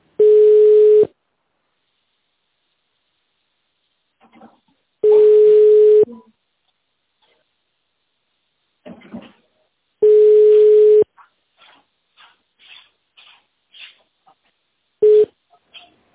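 Telephone ringback tone heard while waiting for an answer: a steady, pitched tone lasting about a second repeats every five seconds, four times in all, the last cut short, with faint clicks and chirps in between.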